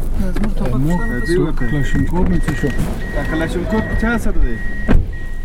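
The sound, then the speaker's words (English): A car is driving on a road past a Taliban position, with a steady low engine and road drone under almost constant talk inside the vehicle. “I'm just driving up past the Taliban position again.”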